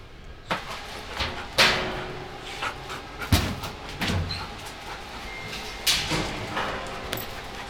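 A dog pants during search training, with rhythmic, breathy pants running throughout. A few sharp clattering knocks stand out over the breathing.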